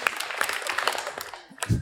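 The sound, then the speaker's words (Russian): Women in a stand-up comedy audience clap. The claps are scattered and uneven, fairly quiet, and thin out toward the end. “Прикольно, девушка хлопает, и парень рядом в шоке сидит вообще такой.”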